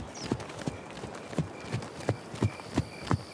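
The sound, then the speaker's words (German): Horse hooves clip-clop as a horse is ridden into the forest. The sharp, moderately loud hoofbeats repeat at a steady walking pace. “Lass uns in den Wald reiten.”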